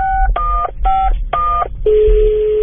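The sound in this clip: A telephone number is dialed on a keypad: four short, loud two-tone beeps in a quick, even rhythm, then a single steady tone that holds to the end.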